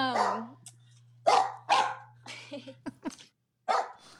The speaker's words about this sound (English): And sorry, there are dogs in the background.